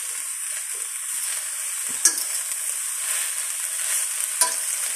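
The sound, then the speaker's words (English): Kale cooking in a pan gives a continuous bright sizzle and crackle, steady in level, broken by two sharp clicks of stirring. “I'm just cooking some kale in the background. I don't know if it's picking up on the mic or not. It's kind of got a nice sound to it.”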